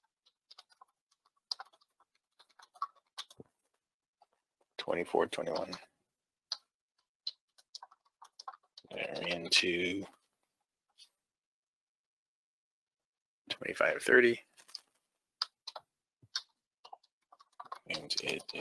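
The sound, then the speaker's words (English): Scattered keystroke clicks from typing on a computer keyboard, irregular and fairly faint, broken up by a few longer, louder stretches of sound. “I'm going to type again.”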